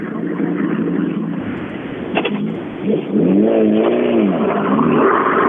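Two Mitsubishi Evo rally cars with glowing brakes arrive close together at a stage finish, engines droning loudly, then a revving sweep that rises and falls in pitch midway and settles into a sustained roar.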